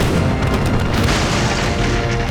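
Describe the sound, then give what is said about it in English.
Broadside cannon fire from a 46-gun ship against a small wooden merchant vessel in fog gives a loud, continuous, deep booming roar that stays dense and heavy throughout, with no separate blasts picked out. “The broadside cannon fire shredded the merchant ship's sails and blasted apart the wooden hull.”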